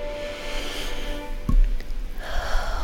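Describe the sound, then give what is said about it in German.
A deep breath taken during a guided relaxation exercise: a breathy, airy inhalation with a sharper intake partway through and a longer rush of air near the end, heard on its own without speech. “Nimm einen tiefen Atemzug.”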